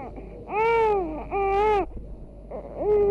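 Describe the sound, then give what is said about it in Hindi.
A baby cries loudly in three drawn-out wails, each a strained, wavering tone with a short pause between. The last wail is cut off at the end. “बाबा इतना जोर से क्यों रो रहा था? दूर से इसके रोने की आवाज सुनाई दे रही थी।”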